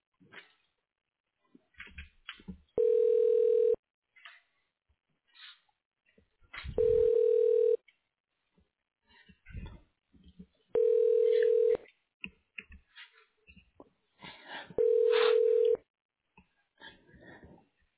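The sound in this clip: Four long, steady, mid-pitched telephone tones, each about a second, sound while a call to University of Colorado Health is transferred. Short, choppy bursts of muffled sound fall between the tones.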